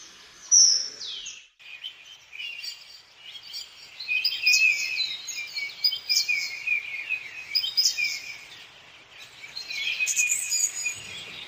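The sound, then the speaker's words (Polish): Birds sing near clean rivers and streams in Roztocze, with high, bright chirps and repeated warbling phrases in several bursts. One sharp call stands out at the start, and the songs rise and fade over a quiet background. “właśnie na roztoczu, udało nam się wypatrzeć klejnocik, tak naprawdę, jeśli chodzi o kwestie ornitologiczne”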